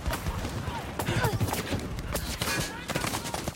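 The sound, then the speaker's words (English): Heavy gunfire in an audio drama battle scene at a minefield, with dense, rapid shots and rattling bursts that overlap continuously throughout, fairly quiet overall. “The jeep they were hiding behind explodes, caught in a spotlight. They're under heavy fire.”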